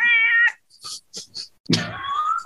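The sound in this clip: A pet cat meows a few times: a long, tonal, mid-pitched cry opens, a couple of faint short sounds follow, then a second loud meow slides downward and trails off. No one speaks.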